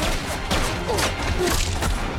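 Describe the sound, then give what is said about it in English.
Gunfire exchanged between a small group and guards shooting back from the edge of trees beside a field: a dense, loud volley of sharp cracks over continuous rumbling noise, with no pauses. “shoots at the guards, who return fire from the edge of the trees”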